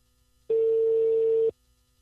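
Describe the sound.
A telephone tone sounds after a call drops out: a single steady, mid-pitched beep lasting about one second, loud and alone, with near silence before and after.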